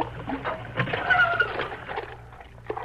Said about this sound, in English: Helps a lot having pump in the house